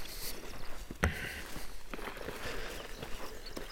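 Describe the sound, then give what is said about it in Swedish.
Footsteps hop from tussock to tussock across a wet bog: a few irregular soft thuds and rustles over a steady low background hiss, with no voices. “Ska vi ta oss ut här på mossen? Det är lite blött men det ska gå. Vi hoppar på tuvorna.”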